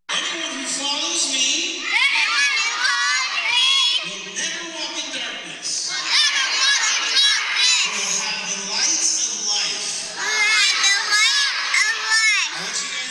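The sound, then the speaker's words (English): A crowd of children loudly recites scripture back in unison on an evening of vacation Bible school, their shouted voices surging in long phrases separated by brief lulls. “Those kids reading scripture back. It was so loud.”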